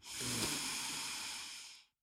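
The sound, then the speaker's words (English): A single slow inhale through the nose during a guided breathing exercise, heard as a steady, airy hiss that holds for almost two seconds and then fades out. No one speaks over it. “Take an inhale through the nose”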